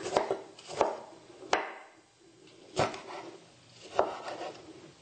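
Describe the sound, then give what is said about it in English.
A knife coarsely chops two tomatoes, producing a few sharp, irregularly spaced knocks with quiet gaps between the strokes. “Now we have to chop up 2 tomatoes. Coarsely chopped. Just chop away.”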